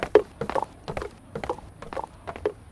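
Hoofbeats of an animal galloping off into the moonlight, heard as a quick, uneven run of many soft clops at a fairly faint level.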